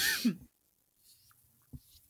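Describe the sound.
A sudden harsh cough from someone who has just inhaled tea: one loud burst at the very start, then near silence and a brief, faint catch of breath later.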